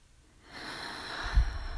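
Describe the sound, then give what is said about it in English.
A long exhale during a guided breathing exercise: after a brief quiet start, a soft, airy, steady rush of breath runs to the end. “And when you're ready, and exhale for eight, pressing your navel to your spine on that eighth count.”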